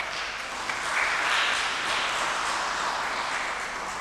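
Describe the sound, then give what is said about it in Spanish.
Audience applause at a prize draw: a steady wash of clapping that swells around the first second and then holds at an even level to the end. “un aplauso.”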